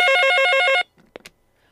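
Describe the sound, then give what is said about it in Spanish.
An incoming telephone call rings with a bright, warbling electronic trill that lasts under a second, then cuts off abruptly and is followed by a few faint clicks. “Muchísimas gracias por la llamada. Este, estamos teniendo nuevamente otra llamada.”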